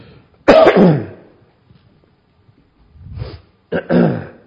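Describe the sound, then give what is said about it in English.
An adult's allergy-related dry cough, heard as a few harsh, hacking bursts separated by a long quiet gap, with no talk. “Those of you who know me know I get this dry cough.”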